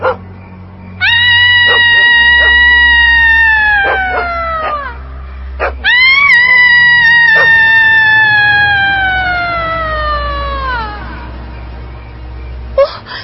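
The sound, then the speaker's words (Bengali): Loud screaming at night: two long, drawn-out wailing cries, each sliding downward in pitch, over a low rumble. “এত রাতে কিসের চিৎকার?”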